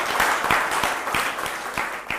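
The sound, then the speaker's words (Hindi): Gathered audience members applaud one another: a dense, even patter of clapping with regularly spaced louder claps giving a steady rhythm throughout. “इसलिए मैं कहूंगा कि हम लोग एक दूसरे को बधाई देते हुए तालियां एक दूसरे को दें”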